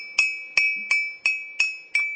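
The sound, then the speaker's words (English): A metal spoon taps around the rim of a teacup six times at an even pace, each strike a bright glassy clink with a clear ringing tone that fades before the next. “this is a good one if you've got a teacup at home, to get a spoon and tap your teacup around the rim and you will hear that the pitch of the cup changes”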